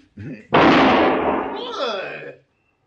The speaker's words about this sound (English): He's good with the gun. Very good, senor. You just shot the gun from my hand.